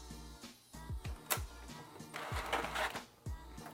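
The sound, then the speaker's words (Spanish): A printer printing a photo: a mechanical hum with repeated short, falling motor whines and bursts of rattling carriage noise, moderately quiet and heard alone. “Le voy a mostrar que toco imprimir.”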